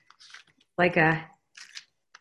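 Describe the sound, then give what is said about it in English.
Cards being shuffled: brief dry papery rustles before and after a short burst of speech in the middle. “So I'm going to shuffle the cards.”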